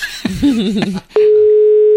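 A telephone line tone sounds while a number is being called, a steady, unbroken, mid-pitched tone that holds evenly to the end. Before it comes a short, wavering sound.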